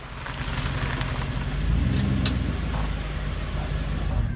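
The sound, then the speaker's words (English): A car pulls up and stops outside a house at night. Its low engine rumble swells slightly around the middle and then holds steady. “He pulls up at the home of Raymond Price.”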